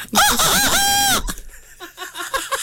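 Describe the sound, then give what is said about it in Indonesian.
A person imitates a rooster crowing with one loud, drawn-out, harmonic call that wavers slightly before breaking off. Softer, uneven vocal sounds follow. “Kak mana bunyi ayam jantan berkokok? Elok jantan lah yang buat.”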